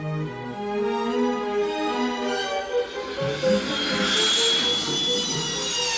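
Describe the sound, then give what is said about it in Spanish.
Steady engine whine of a floating hover vehicle, a loud continuous drone with layered tonal harmonics and a brighter hiss swelling near the end. “Montan en el vehículo flotante.”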